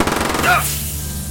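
A burst of automatic gunfire: a fast, loud stream of shots for about half a second, then a harsh, decaying wash of noise.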